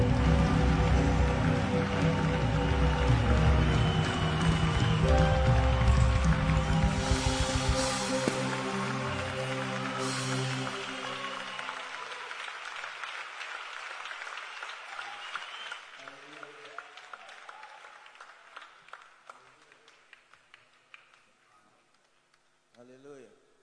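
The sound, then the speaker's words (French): Congregation applauding during a church service, a dense, rain-like wash of clapping mixed with voices and tonal sounds that gradually thins and fades over the second half to sparse, quieter claps. “As you put your hands together.”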